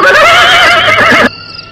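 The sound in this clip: A horse at a stable lets out one loud, long, wavering whinny of over a second. It cuts off abruptly into a much quieter background.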